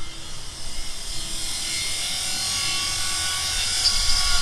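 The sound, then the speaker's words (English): A welding torch cutting through a padlock and heavy chain on a silo door gives a steady, hissing roar with a thin, high whine riding on top. It holds constant and grows slightly louder toward the end. “The door to the silo is locked with a padlock and heavy chain. Fortunately, I don't go anywhere without my special reporter's welding torch.”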